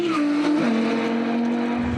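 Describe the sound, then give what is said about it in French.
A naturally aspirated car engine roars at full throttle along a circuit straight at over 225 km/h. The loud, steady drone dips sharply in pitch at a gear change, then climbs gradually again. “Et là, on a fait 225. Rien de tel que l'Atmo. Plus sonore, plus linéaire et plus savoureux à chaque changement de vitesse.”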